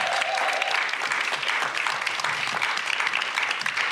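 Audience applause fills the whole clip: dense, steady clapping at an even, fairly loud level from start to finish, with no talk over it.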